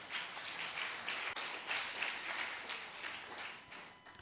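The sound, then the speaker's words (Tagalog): A church audience clapping during a sermon, a faint, steady, rhythmic patter of many hands that carries on evenly throughout. “Palakpakan po natin ang Panginoon.”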